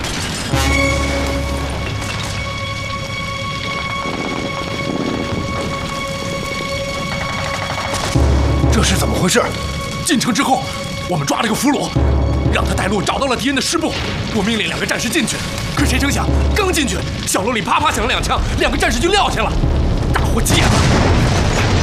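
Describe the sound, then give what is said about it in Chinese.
Gunfire and explosions as soldiers fire on an enemy division headquarters: a loud, dense barrage of booms, cracks and crashes that builds and continues throughout, with voices heard among the noise. “停止射击！ 这里是敌人的师部。是啊，你们在对谁开火？”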